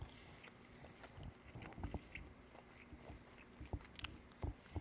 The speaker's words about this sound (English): So like literally try a bite. So I'm going to go into this here just for a second.